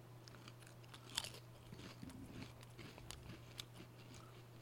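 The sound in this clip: Someone bites and chews a spicy, tangy potato chip with green flecks, making faint, dry crunches. Many irregular crunches sound over a low steady hum, with no talking.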